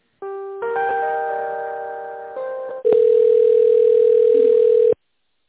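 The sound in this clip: Telephone line tones during a call transfer: a few layered electronic tones shift in pitch and loudness, then a single steady, loud tone holds for about two seconds and cuts off abruptly.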